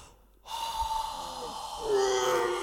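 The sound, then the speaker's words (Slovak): A strong, forceful blowing breath begins abruptly as a sustained, breathy rush and keeps going for about two seconds, growing louder toward the end. “No, treba mi ešte mocnejšie dýchnuť.”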